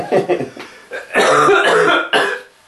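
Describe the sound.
Loud coughing after drinking tea the wrong way: a few sharp bursts, then a longer sputtering fit and one last cough before it fades out.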